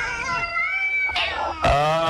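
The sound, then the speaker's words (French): Cats meowing, a few drawn-out high-pitched calls in quick succession, the last one louder and sharper. “Qu'est-ce que c'est, là? C'est des chats, voyons.”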